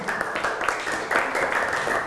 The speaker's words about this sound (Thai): เก่งมากปรบมือให้เพื่อนกลุ่มหนึ่งค่ะ